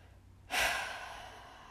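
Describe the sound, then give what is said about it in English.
A single deep breath is taken. A sudden breathy exhale swells, then fades slowly into a long, soft hiss, heard alone without talk. “Deep breaths. Big deep breaths.”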